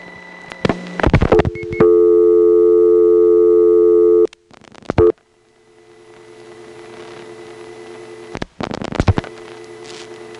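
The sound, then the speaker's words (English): A reorder tone from an old step-by-step community dial office tone plant: steady electronic tones that start and stop abruptly, broken by bursts of clicks and gaps, then a fainter tone holding before more clicks return. “You might have noticed the pitch of that reorder tone changing in a regular pattern. That's the rule rather than the exception for this type of tone plant used in the old step community dial offices.”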